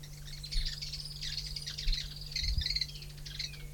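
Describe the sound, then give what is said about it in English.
Birds calling, with many high chirps and tweets in quick, irregular bursts across the whole stretch, over a steady low hum. “Three birds present.”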